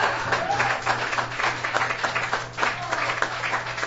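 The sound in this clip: Audience applause at a songwriter's stage night in a bar: dense, steady clapping that runs the full four seconds, with a low electrical hum underneath.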